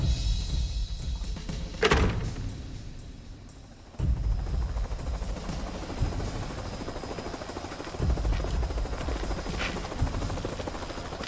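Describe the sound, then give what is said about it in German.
A helicopter's engine and rotor make a steady, fairly loud droning whir that continues throughout without pause. “Sie steigen jetzt in den Heli. Wir fliegen nach Vilnius.”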